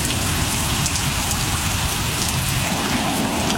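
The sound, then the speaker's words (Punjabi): Heavy rain pouring down in a steady, dense hiss of countless drops striking surfaces, loud and unchanging throughout with no voices. “ਕਣੀਆਂ ਮੋਟੀਆਂ ਹੁੰਦੀਆਂ ਗਈਆਂ, ਫਿਰ ਪੂਰਾ ਜ਼ੋਰ ਲਾ ਕੇ ਹਟ ਗਈਆਂ, ਫਿਰ ਤੋਂ ਚਮਾਸਾ ਜਿਹਾ ਹੋ ਗਿਆ, ਫਿਰ ਮੀਂਹ ਆਇਆ”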